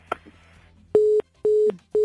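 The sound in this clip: Telephone line tone after a caller hangs up on a call-in line: a faint click, then three evenly spaced, steady mid-pitched beeps, the last one cut off, with no voices.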